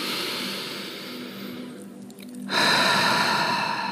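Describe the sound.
A slow, deep inhalation taken during a guided relaxation breathing exercise, soft and airy against a steady ambient background. The background swells and brightens after the breath.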